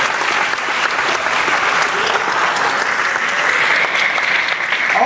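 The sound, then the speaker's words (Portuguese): A church audience applauds in a loud, continuous wash of clapping that stays steady throughout, with no single claps standing out. “Você pode aplaudir o Senhor por isso.”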